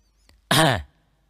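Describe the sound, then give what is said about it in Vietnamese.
A man clears his throat once with a short, loud, dry, voiced harrumph lasting under half a second, preceded by a faint click and followed by silence. “Cao Lượng ho khan một tiếng”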